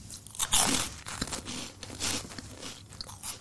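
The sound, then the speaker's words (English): Someone bites into a giant Watsits cheese puff snack, making crisp, crackly crunches. A sharp first bite is followed by irregular, softer chewing crunches. “Now, I do like a giant Watsit, I have to say.”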